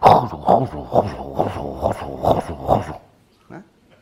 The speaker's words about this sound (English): Have you ever heard a baby's beat in the womb?